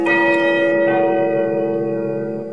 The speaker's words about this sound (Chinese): 远处江边的钟楼发出悦耳的钟声